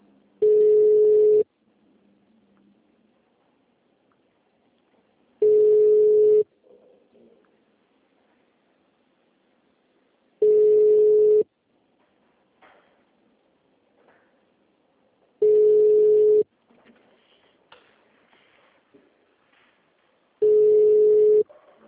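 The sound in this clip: Ringback tones of a telephone call to someone: five long, steady beeps of about a second each, evenly spaced with quiet gaps between them.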